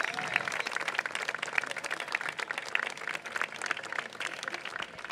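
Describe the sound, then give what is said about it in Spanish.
Applause from an audience at an anniversary celebration, honoring a long-serving worker: dense, steady clapping that runs through the whole passage without a break. “igual nuestro aplauso para Roque.”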